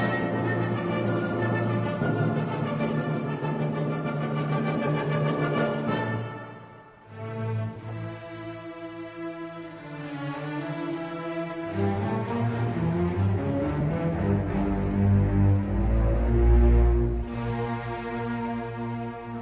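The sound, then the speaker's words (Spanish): An orchestra plays the slow movement of Beethoven's Ninth Symphony, with sustained, lyrical strings and woodwinds in long, held harmonies. The music eases briefly near the middle before swelling fuller, with a deep low register building toward the end. “y vamos a escuchar el largo de esta misma sintonía, que suena así, de esta misma sinfonía.”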